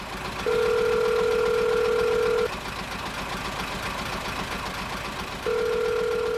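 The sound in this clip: A telephone tone sounds while someone places a call to the police: two long, steady, even-pitched tones separated by a pause of a few seconds, over a low continuous rumble.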